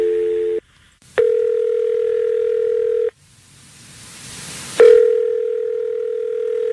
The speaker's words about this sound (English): So let's call him now.